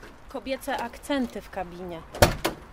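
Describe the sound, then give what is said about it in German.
The driver's door of a truck cab is unlocked with one sharp mechanical click that rises briefly over a voice talking steadily. “Die 36-Jährige schließt die Fahrerinnentür auf.”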